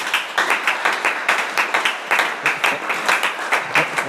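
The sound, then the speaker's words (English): Thin, weak clapping from a church audience during a Wednesday teaching service: a steady, rhythmic run of many sharp claps, evenly paced throughout, with no voices over it. “Also, their clapping is very weak.”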